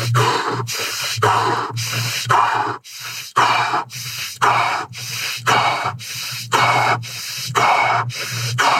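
Rapid, forceful breaths from a breathing exercise: many short, even bursts of air in a fast, steady rhythm, each a sharp puff, repeated without pause for the whole stretch.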